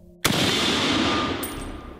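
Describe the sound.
A single loud gunshot fired by an old man near a line of oak trees: a sudden sharp crack that swells into a long, sustained, roaring rumble that slowly fades over the following seconds.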